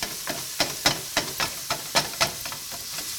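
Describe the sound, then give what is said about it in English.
Ground meat with chorizo seasoning sizzles in a pan while being broken up into granular crumbles, a constant hiss punctuated by repeated scraping and stirring strokes at an uneven rhythm. “We want this beat up so it's granular, like if you were doing ground beef for like a pasta sauce or something, right?”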